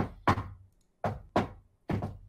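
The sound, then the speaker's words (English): Knocking on a red door, a few heavy, dull knocks spaced unevenly, each with a short, low, resonant thud and a brief decay, with no voices. “knock on the door. The door opens”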